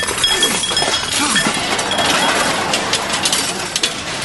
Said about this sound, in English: Every sword, dagger, and knife in the castle. And, oh, I wasn't sure, so I put in a few spoons as well.